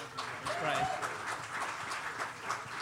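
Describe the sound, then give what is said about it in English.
Audience applause for a presenter just introduced at an event, a steady wash of clapping with a voice speaking over it. “Ladies and gentlemen, we are lucky enough to have an incredible presentation. Big hand for Jeff Smith.”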